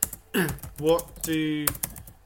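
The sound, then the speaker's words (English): Rapid keyboard typing as a tweet is written, light clicking keystrokes running under a voice that speaks and hums over them. “I'm going to start to write the tweet.”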